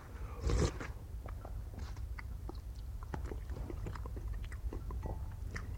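Someone eating a meal: faint, crisp biting and chewing clicks and small crunches run throughout, with a brief louder rustle near the start.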